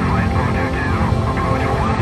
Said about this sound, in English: And this is no ordinary chopper. It's got special powers, and once we're airborne, you'll see just what I mean.